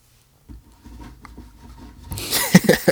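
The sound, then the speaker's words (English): Paper tearing and rustling as an envelope is opened in a mock award reveal: soft rubbing from half a second in, then a louder, rough ripping burst near the end. “trying to pretend like I was opening the envelope.”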